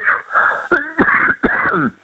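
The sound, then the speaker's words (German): A person coughs in a few sharp, hoarse bursts, with raspy, wheezy throat sounds running between them. “Das ist mein Husten, wie gesagt.”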